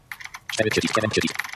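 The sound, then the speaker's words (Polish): Rapid keystrokes on a keyboard enter a password into an edit field of a notes app, a quick run of light clicks mixed with a voice. “Możemy wejść do pola edycji i wpisać zwyczajnie klawiaturą.”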